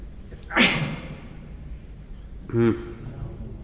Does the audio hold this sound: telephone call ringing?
no